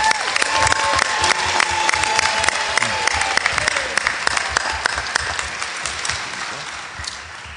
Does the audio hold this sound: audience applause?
yes